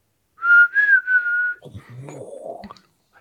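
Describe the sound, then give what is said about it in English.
Whistling comes from the trees at night as a clear, fairly high whistled tone. It starts in a few short pulses that run into a longer held note, then gives way to faint scattered rustles and knocks. “They're going to get ready to go back inside, but this time they hear”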